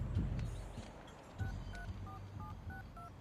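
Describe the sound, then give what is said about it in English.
A quick run of electronic keypad tones as a number is dialed on a cell phone outside a store. Several short, even beeps at shifting pitches follow one another over steady low street noise. “The guy on the left punches a number into his cell phone.”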